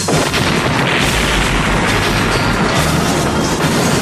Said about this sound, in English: They're out there setting off bombs.